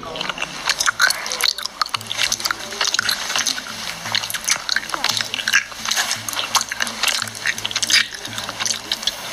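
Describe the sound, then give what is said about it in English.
Raw honeycomb is eaten for ASMR, giving many wet, crackling, squelching bites and chews, with a voice talking over them. “Some examples of ASMR are eating raw honeycomb,”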